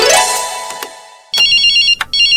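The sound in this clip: A telephone ringtone plays as a loud, high electronic warbling trill that repeats in two bursts with a gap between them, following a fading tone at the start.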